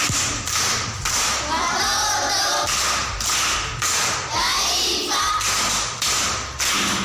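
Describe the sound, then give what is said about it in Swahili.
Applause from a primary school class for a pupil who has just answered a riddle: dense, steady clapping with a rhythmic pulse, sustained through the whole clip. “Makofi kwa mjomba.”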